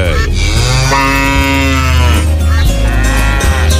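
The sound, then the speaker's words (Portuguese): An ox moos in one long, loud, deep call that carries through the whole clip with a rough, throaty tone and no other sounds. “Sai pra lá, boi velho. Se aquieta. Sai pra lá, boi”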